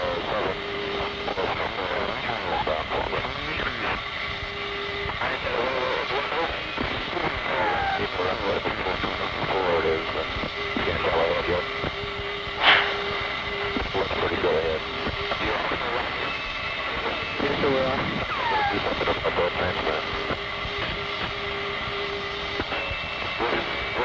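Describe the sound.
Aircraft engines drone steadily throughout, a dense, even roar with a sustained mid-pitched tone running through it and one brief sharp click near the middle.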